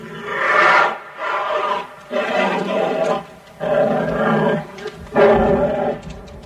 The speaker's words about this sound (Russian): А бурый медведь, вот он, стоит на задних лапах в клетке и ревет.